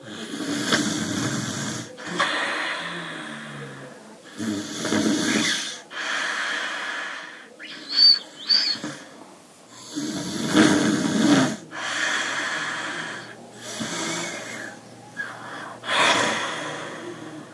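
A grandmother snores in a slow, steady rhythm of raspy breaths with snorting, gasping inhales, cycling repeatedly at a soft-to-moderate level with no talk.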